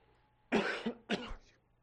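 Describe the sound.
Two throat-clearing coughs: a strong, harsh burst, then a brief pause and a second, shorter one, with no talk around them.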